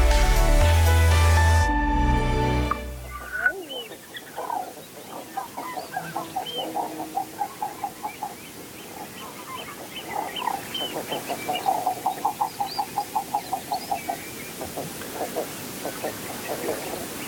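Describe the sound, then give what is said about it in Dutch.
Common eider calls, including a female eider, recorded at the Slufter on Texel: many rapid series of clucking notes at moderate volume over steady background hiss, after a few seconds of music at the start. “bij de Slufter op Texel, waar hij dit geweldige eidereendgeluid opnam”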